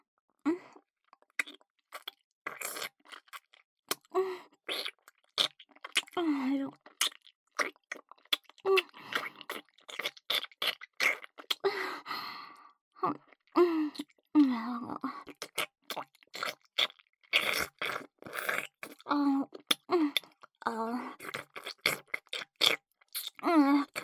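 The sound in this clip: Someone eating and chewing food, heard as many wet, crunchy bites and chews in irregular bursts with brief pauses, mixed with soft voiced sounds.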